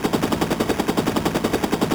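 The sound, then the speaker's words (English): Machine gun fire rattles in a loud, rapid, evenly spaced stream of shots that carries on without a pause. “This agent just threw what appears to have been a grenade and fired a machine gun.”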